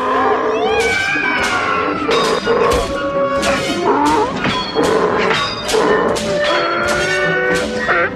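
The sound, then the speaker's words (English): A human voice imitates a krayt dragon call to scare off sand people in the desert, with many wavering, high-pitched howling cries in a rapid, loud series. “And Obi-Wan Kenobi comes out of the desert and does a cry out dragon call to scare them away.”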